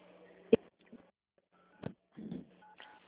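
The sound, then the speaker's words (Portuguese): Phone keypad tones triggered by tapping a touchscreen during a phone call: a few short, irregularly spaced beeps over a faint steady hum, with no talk. “você está clicando na tela.”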